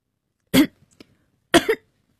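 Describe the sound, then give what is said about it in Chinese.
Two choking coughs from a man, each a harsh, abrupt double burst, about a second apart, with quiet between them and no talk. “海云呛咳了一声，心脏猛烈收缩，导致了瞬间呼吸困难”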